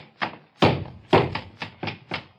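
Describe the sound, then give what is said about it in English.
Heavy, dull thuds and knocks as a shotgun is pounded on the floor and then hammered, several loud, irregular blows separated by short gaps, with no voices. “I'm going to take the same gun and pound it on the floor. And now I'm going to hammer it and knock it.”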